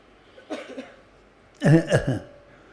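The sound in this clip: Coughing from a person, a soft short burst followed by a louder, harsher fit of a couple of coughs, with quiet background between.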